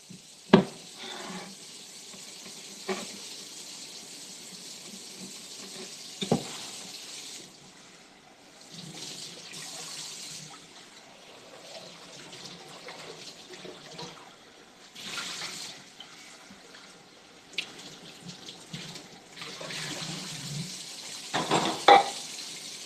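Water runs from a tap during washing, with soft hissing flow and intermittent splashes. Several sharper clicks and knocks break into a quiet, uneven stream of water noise.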